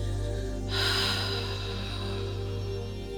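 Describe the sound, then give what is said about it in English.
A cleansing breath in a breathing exercise, exhaled fully and completely: a soft airy rush begins abruptly and holds steady to the end over a constant low hum, with no speech. “A cleansing breath accentuates the exhalation, and so breathe out fully and completely.”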